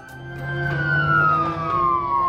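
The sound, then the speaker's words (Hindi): An ambulance siren wails as one long, loud tone that slides slowly downward in pitch and holds steady to the end. “Ambulance आ गई थी।”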